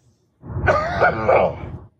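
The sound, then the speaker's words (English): A dry-throated cough and throat-clearing from someone hoarse after a lot of yelling: one rough, voiced, grunting burst of about one and a half seconds, heard alone. “I gotta cough one more time. Excuse me, hold on.”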